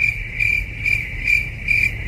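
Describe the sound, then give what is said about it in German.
Crickets chirping in a steady, regular rhythm: five high, shrill trills pulse at even intervals over a low background rumble, with no voices. “Sie jubeln noch, die Grillen.”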